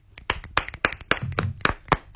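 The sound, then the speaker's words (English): Hands clapping in a quick, irregular run of many sharp claps, fairly loud and with no talking over them. “Oh, we're clapping. I thought it was more of a click thing.”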